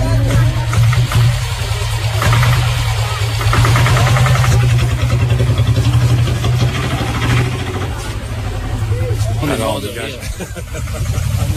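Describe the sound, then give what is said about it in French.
A Royal Enfield motorcycle engine in a village of narrow lanes gives a loud, even low chugging that runs throughout, with people talking over it. “Alors ça, c'est la moto. Enfield.”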